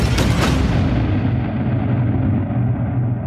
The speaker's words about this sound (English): with a huge explosion. It's a really simple track, and it's all rhythmical, basically.